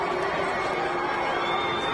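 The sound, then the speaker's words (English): A wrestling crowd at Monday Night Raw reacts to a main-event match at the end of the show, a dense, steady roar of many voices with scattered shouts and cheers throughout. “And as you can tell by the crowd, they're still not buying Seth Rollins on this one.”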